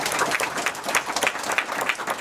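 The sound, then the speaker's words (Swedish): Audience applause at a public meeting: many hands clapping in a lively, uneven patter with slight rises and dips, moderately loud and unbroken. “Tack så mycket. En applåd för alla svar.”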